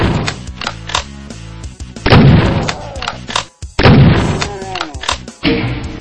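Shotgun fire in a video game booms over loud, driving game music, with a few heavy blasts standing out among many sharp percussive hits.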